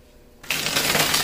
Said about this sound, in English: All right, let me set this back here. Let me take the cards that flew off.